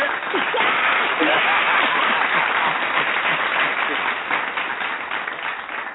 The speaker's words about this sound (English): Do they get a round of applause?